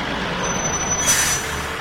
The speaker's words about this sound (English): drives the truck away